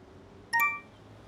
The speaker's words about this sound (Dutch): Je krijgt een bericht. Het is je studiemaatje.